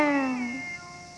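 A cat meows once, a drawn-out, tonal cry that slides slightly downward in pitch and then fades.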